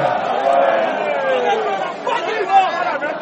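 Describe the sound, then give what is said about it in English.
Crowd at an anti-government protest in Monrovia, Liberia: dense, overlapping voices shouting and chattering at a steady, fairly loud level, with a few individual cries rising above the mass. “A year and a half later, the crowds are sounding less positive.”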